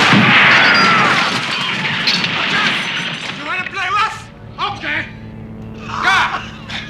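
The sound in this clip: Gunshots: a loud, dense burst of rapid fire fills the opening seconds, followed by a man shouting.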